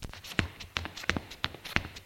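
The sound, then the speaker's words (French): Footsteps running up stairs four at a time: a quick, slightly uneven series of sharp footfalls, each a crisp, clear impact separated by brief gaps. “Frédéric monte les marches 4 à 4.”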